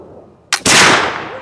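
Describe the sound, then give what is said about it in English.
A flintlock muzzleloader rifle fires black powder: a sharp crack from the pan flash, then a split second later a loud blast that rolls off in a decaying roar. “The ramrod pushes the black powder and bullet into the bottom of the gun, back by the flintlock. Ready to fire. So, put on full cock. Here we go.”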